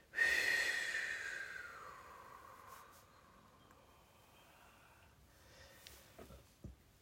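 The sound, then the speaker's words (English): A slow, long exhale during a guided breathing exercise as the arms are lowered. The breath starts fairly strong and fades gradually over a couple of seconds, followed by quiet with faint small sounds. “And as you breathe out, bring your arms down as you bring out long and loose.”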